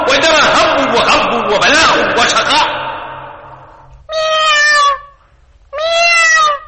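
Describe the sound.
A cat gives two drawn-out, loud meows, one after the other, each with a clear tone and separated by a short pause, following a stretch of animated talk with some chuckling.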